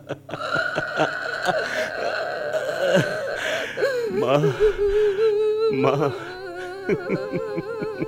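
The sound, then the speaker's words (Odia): A woman cries with wavering, sobbing voiced wails that rise and break, loud and continuous throughout. “କାନ୍ଦନି କାନ୍ଦନି ମାଉସୀ, ଆଉ କାନ୍ଦନି।”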